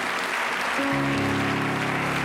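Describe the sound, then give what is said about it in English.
A church audience clapping their hands in a continuous, dense patter; partway through, sustained musical tones come in beneath the clapping and hold to the end. “Let's stand up. Let's clap our hands. Let's lift our voice.”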